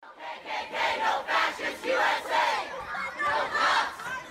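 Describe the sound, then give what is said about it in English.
A protest crowd chants outside the old county courthouse in Durham, North Carolina, during the removal of a Confederate soldier monument. Loud shouted bursts repeat in a steady rhythm throughout the short stretch. “This sound bit you're hearing is from a protest in Durham, North Carolina, in front of the old county courthouse. This was recorded during the removal of a Confederate soldier's monument back in mid-August.”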